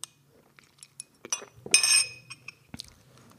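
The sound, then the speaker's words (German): Glass clinks lightly several times as someone takes a sip of pure juice. A brief slurping swell sits in the middle, framed by small taps and knocks. “jetzt trinke ich noch mal einen Schluck von meinem Ursaft und dann geht es aber auch los mit dem Inhalt”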